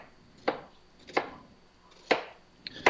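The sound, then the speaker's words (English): A kitchen knife that needs sharpening chops through an onion on a board, quartering it and trimming the root ends. A few sharp, separate cutting knocks land at uneven intervals, with quiet pauses between them. “what I do is I cut them in quarters, then I cut off each end kind of at an angle where the, the roots are at.”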